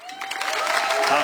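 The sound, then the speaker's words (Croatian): Applause from a music festival audience for a debuting composer, swelling quickly from a faint start into a fuller spread of clapping within about a second. “pa ćete mu pljeskat kako smo se navadili na početke da čovjek misli da je prišao Mišo Kovač”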